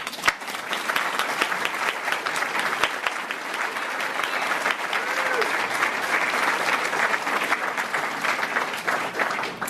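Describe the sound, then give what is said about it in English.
Audience applause for members of the CDOT team as they rise at a civic gathering. Dense, even clapping from a large crowd runs steadily throughout. “So I'd like to ask members of the CDOT team that are here today to please rise. Let's give them a hand.”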